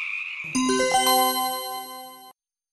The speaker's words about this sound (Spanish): terriblemente molesto al oír a las atrevidas ranas